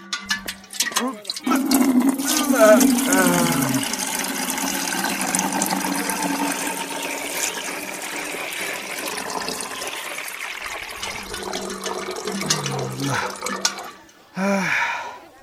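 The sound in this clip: Milk is poured into a can at a dairy, a steady splashing, trickling flow that runs on for most of the span. Voices talk briefly at the start and again at the end.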